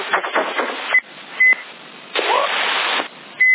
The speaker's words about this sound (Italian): Che è questo bip?